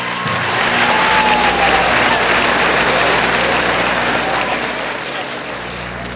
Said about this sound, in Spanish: un aplauso a este movimiento de defensa nacional. Así, un aplauso, vale.